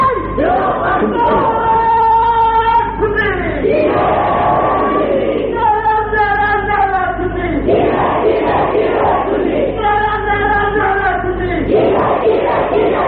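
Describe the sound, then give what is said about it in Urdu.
A crowd at a protest rally chants a slogan loudly in unison, repeating the same phrase in a steady cycle several times, the massed voices strong and unbroken from start to end. “سیدھا سیدھا نعرہ لگاؤ اور زور سے لگاؤ. سننے کا نعرہ”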